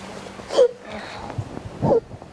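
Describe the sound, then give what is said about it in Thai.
A child sobbing, with two sharp catching sobs about a second apart and soft breathy whimpers between them. “ไม่ต้องร้องไม่ต้องร้อง ลูกสะอื้น”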